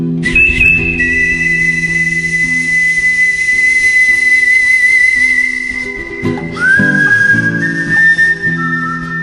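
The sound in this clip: Solo whistling of a Western film theme by a professional whistler: long, clear, high held notes, one sustained tone that then shifts to a new pitch late on, over a low steady backing.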